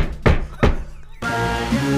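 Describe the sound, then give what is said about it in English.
Someone thumps a desk, striking it with his groin. Two dull, low thumps come in quick succession, then a continuous dense sound takes over. “I'm just thumping the desk with my cock.”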